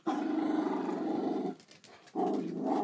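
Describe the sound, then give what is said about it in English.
A mother dog growling at her puppy: a low, rough, sustained rumble that breaks off after about a second and a half, then resumes as a second shorter growl. “Yeah, that's a common sound here. That's a mother dog giving the little one shit for something.”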